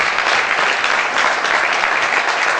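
Applause from a theatre audience, a dense, steady wash of many hands clapping at an even loudness throughout, with no pauses or other sounds.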